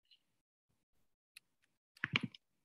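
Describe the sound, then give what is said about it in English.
Mouse right-clicks while navigating an application on a computer: a few faint, sharp clicks, then a denser cluster of louder clicks near the end, with no talking. “Now, right click on that, click on get info.”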